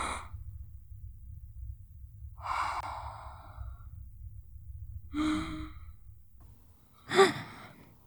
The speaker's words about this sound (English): Now, breathe. Just breathe.